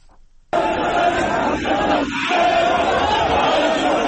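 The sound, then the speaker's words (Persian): Iraqi Muslim protesters storming the Danish embassy in Baghdad over a Quran burning: a crowd roar bursts in suddenly and stays loud and continuous, full of massed shouting voices. “این صدای مسلمانان معترض عراقی است که صبح روز شنبه به سفارت دانمارک در بغداد حمله کردند.”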